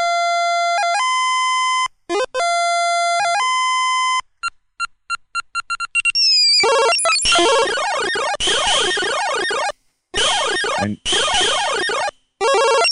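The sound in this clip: Arcade video game sounds: electronic beeping tones, then a rapid run of short blips, followed by loud buzzing, warbling siren-like sweeps in bursts separated by brief gaps.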